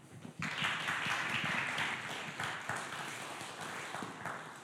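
An audience applauds to welcome the preacher to a Sunday service. The clapping bursts in abruptly after a brief quiet moment, then continues as a thick wash of many hands that slowly softens.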